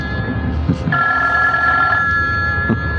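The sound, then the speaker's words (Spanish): A telephone rings with an incoming call: one bright, steady electronic ring lasting about a second, clear above low background noise. “Me parece que es una llamada importante. Presiento que es él, precisamente ese hombre, quien llama.”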